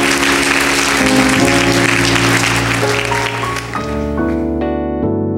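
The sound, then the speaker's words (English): A church audience applauds during a worship service, a loud, steady wash of clapping blended with sustained keyboard chords that shift several times. “Now give him some praise this morning. If God did something for you, give him a hand.”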